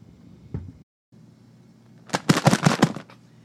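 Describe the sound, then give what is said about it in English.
An explosion sound effect from a bomb comes as a quick cluster of loud crackling, popping bursts after a quieter stretch of low hum. “That's the sound of your bomb listener feedback”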